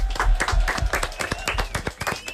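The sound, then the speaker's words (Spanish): Audience clapping during a live quiz-style show comes as many crisp, fairly regular claps in quick succession, a rhythmic group beat rather than a smooth wash, moderately loud and sustained through the whole stretch. “Aplaudiment, venga.”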